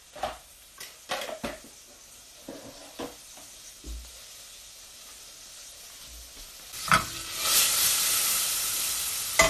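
Butter sizzling in a pan while cooking stewed mushrooms: a few light clicks and taps, then a loud, steady hiss of frying swells up and holds to the end.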